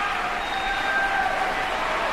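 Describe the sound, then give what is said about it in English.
Sustained applause from a standing audience after an orchestra performance, an even, continuous wash of clapping without breaks, fairly soft. “Well-deserved applause. The audience on their feet as well for a fantastic performance tonight.”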